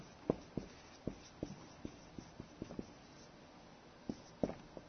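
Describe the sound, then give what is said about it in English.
A pen scratches and taps faintly while someone writes, with many short, irregular strokes and clicks over a quiet background. “Let me just write this here.”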